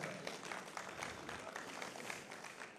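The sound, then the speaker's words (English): During a church service, an audience applauds the worship team with a faint, steady wash of many hands clapping at an even level for about three seconds. “Thank you, worship team. You guys are awesome. Aren't they cool? Let's give them a big round of applause.”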